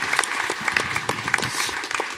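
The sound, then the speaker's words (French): Audience applause, a dense, steady patter of many hands clapping at moderate loudness throughout, with no talk over it. “On peut applaudir Fibre.”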